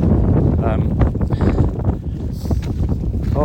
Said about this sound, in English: And I'm in high winds. I'm about to step out of the wind, so if it's miserable to listen to, well, it's not much better without the wind, but it will be without the wind shortly.